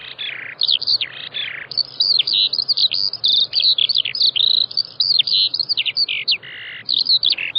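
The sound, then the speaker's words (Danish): A Eurasian skylark sings a rapid, unbroken stream of high, chirping and warbling notes. The song runs continuously at a fairly loud, steady level with no pauses. “Så hvis du nu hørte den her for eksempel, den sanglærke, ja. Den er også truet.”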